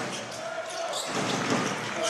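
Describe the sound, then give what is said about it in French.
Basketball dribbled in a crossover move by Matthew Strazel during a game, quick bounces of the ball buried under a dense, constant crowd roar. “Oh, le dribble croisé de Matthew Strazel.”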